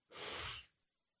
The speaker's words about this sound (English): And now blow out any negative energy that's blocking you from that request.